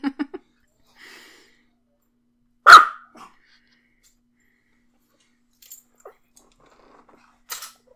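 A Pomeranian barks in a few sharp, high yaps scattered across long stretches of silence, with one louder, fuller bark standing out among the quieter ones.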